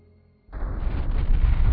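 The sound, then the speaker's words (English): A large Kilji cruiser explodes after a breacher strikes it, in a violent blast that rips from the impact point back to the stern. A faint low hum cuts to a sudden deep roar, and the rumble builds and swells without fading. “With a violent, multiple blast that seemed to shiver from the breacher's impact point all the way aft to the stern, the larger of the two Kilji cruisers disintegrated.”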